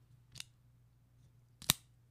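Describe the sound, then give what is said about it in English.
Two crisp snips of a cigar cutter clipping the end of a Punch Golden Era cigar, sharp isolated clicks separated by a short pause against near-silence, the second louder than the first. “And first off, I'm cutting a cigar.”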